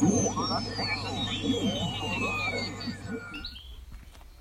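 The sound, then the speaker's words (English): Birds tweet in a back garden near sunset: thin, high chirps and a long whistle that slides steadily downward in pitch, fading toward the end. “hear those birds tweeting”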